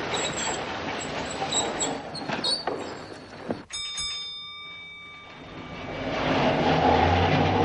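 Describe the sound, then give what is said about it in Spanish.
A tram stopping in a snowy Moscow street: low rumbling and clatter, then a sharp ringing metallic tone that lingers and fades before the rolling rumble swells again. “El tranvía se detiene y la joven desciende.”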